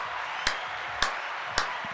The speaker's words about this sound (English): Man, give her one more applause.